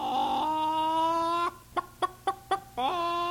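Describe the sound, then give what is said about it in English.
A hen cackles after laying an egg: a long, sustained harmonic squawk, then four short, sharp clucks in quick rhythm, then the start of another drawn-out call. It is loud, with no talk. “The hen's really proud after she's laid an egg.”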